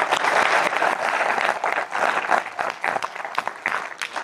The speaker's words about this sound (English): Can you give a round of applause for these two people also?